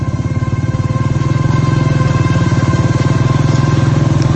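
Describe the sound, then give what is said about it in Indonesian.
A motorcycle engine revs after pulling out of a traffic jam, giving a loud, rapid, low throbbing pulse that holds steady throughout and grows slightly louder early on. “Setelah aku berhasil keluar dari kemacetan itu, aku langsung gas motorku.”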